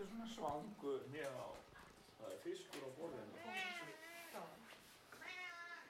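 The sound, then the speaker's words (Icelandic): A cat meows repeatedly at home as fish is readied for dinner, giving several drawn-out, wavering cries, fairly faint and spaced across the span. “Köttur í mjálmar, hann veit að það fiskur í matinn.”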